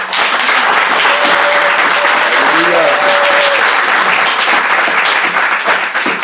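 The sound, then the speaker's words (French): A church audience applauding and cheering: dense, loud, continuous clapping mixed with voices that holds steady for about six seconds. “Là, vous avez acclamé pour vous-même.”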